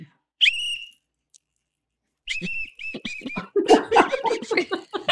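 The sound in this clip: A whistle blown in shrill, high blasts, a short one first and then a choppy run of a few more, followed by laughter and lively voices.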